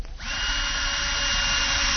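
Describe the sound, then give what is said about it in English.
An electric drill bores a hole in a wall, spinning up quickly into a steady, high, continuous whine that holds at an even level to the end. “Somebody get the drill out of his hands. Let me just drill another hole just for fun.”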